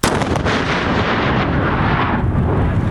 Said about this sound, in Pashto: تازه د کندهار روزګان پر لوی لار کشف شوی ماین ته چاودنه ورکړه